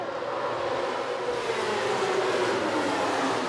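Race-car noise at a racetrack forms a steady, loud, dense roar with no breaks, a low engine tone sliding slowly downward underneath.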